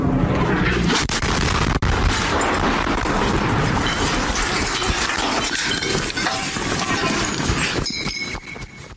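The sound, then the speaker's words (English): An Israeli airstrike explosion erupts as a loud, sustained roaring crash and rumble that fills all nine seconds, with dense crackling debris noise that eases slightly near the end. “Israeli airstrike right behind him”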